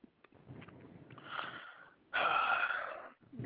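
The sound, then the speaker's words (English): Heavy breathing, a few raspy, wheezing breaths with sniffing, the last one loud and drawn out. “Like you're breathing. That's your comeback. Breathing.”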